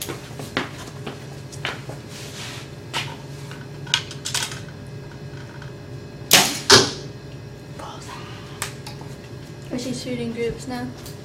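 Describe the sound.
Arrows shot in practice groups in very wet outdoor conditions: scattered sharp snaps and knocks, with one louder close pair midway, while people talk.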